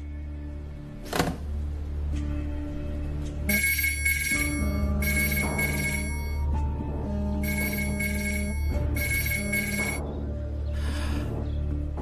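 A telephone rings back while someone places a call, sounding four bursts of bright electronic trilling, each about a second long, with short gaps between them and a low, steady background running underneath.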